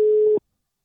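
A telephone busy signal on an unanswered call: a single steady mid-pitched tone lasting under half a second, then silence.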